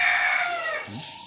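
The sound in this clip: A rooster crows outside among chickens: a single drawn-out call of about a second, loud and strained at first, then tapering off at the end.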